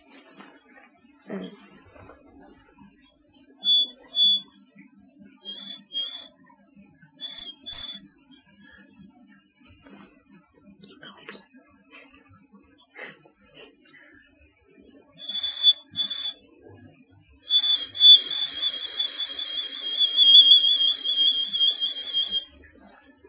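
Short, high whistled chirps from a bird call lure being blown, coming in several quick paired bursts, then a longer warbling trill toward the end, heard over faint background.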